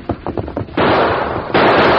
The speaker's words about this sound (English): Hey, those shots.